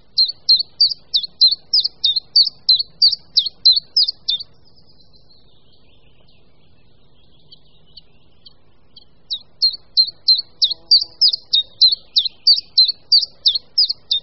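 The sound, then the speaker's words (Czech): Common chiffchaff song from the treetops: a monotonous run of many high, clipped chirps at a steady rhythm, then a pause of several seconds, then the same even series of notes again. “Jednotvárný hlas, který slyšíme z korun stromu, patří zcela nenápadnému malému zelenému ptáku, budničku menšímu.”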